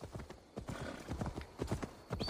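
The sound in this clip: Horse hooves clip-clopping steadily as a rider travels through a medieval-era video game, a continuous run of quiet, even hoofbeats.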